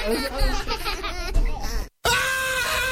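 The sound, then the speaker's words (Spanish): A man screams and groans in pain from a toothache caused by botched dental work. His loud, wavering cries are strained, with a brief silent break before another sustained cry. “Vecina, ¿qué le pasa a su esposo? ¿Por qué está gritando? Fíjese que le hicieron un trabajo odontológico mal hecho y ahora tiene mucho dolor en su muela.”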